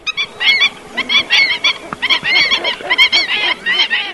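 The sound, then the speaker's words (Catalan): Black-winged stilt alarm calls, given when people come too close to the nest: many loud, yelping, goose-like notes in rapid, irregular bursts that continue almost without pause. “pots veure un imantopus, no? Allò que en dèiem Camallarga o a Eivissa diria xerraire o a Formentera avisador. I per què se li diu avisador? Doncs per això,”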